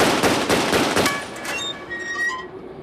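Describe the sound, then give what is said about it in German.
Gunshots blast open a locker: a rapid run of sharp, loud bangs, then high metallic ringing tones that linger and fade. “Schieß das Schließfach auf, aber vorsichtig.”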